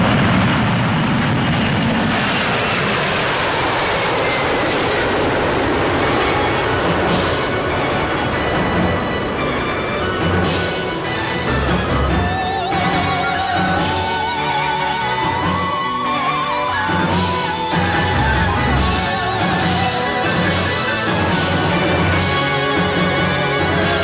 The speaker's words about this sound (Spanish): En este vuelo, sí se permite el uso de dispositivos electrónicos. ¡Despegamos!